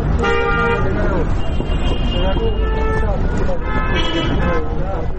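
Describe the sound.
Busy street traffic with passing cars and rickshaws: a constant engine rumble with repeated horn toots throughout, and voices mixed in.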